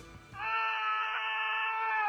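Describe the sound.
A scream used as a comedic radio sound effect, with a single loud, high-pitched cry held steadily for nearly two seconds after a short burst of noise.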